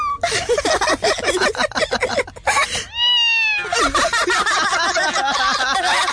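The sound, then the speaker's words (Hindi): A kitten meows in a classroom, a few high, wavering cries with clear tonal harmonics, the clearest call rising then falling in pitch, amid a busy, noisy background. “अरे, ये बिल्ली की आवाज अपनी class में कैसे?”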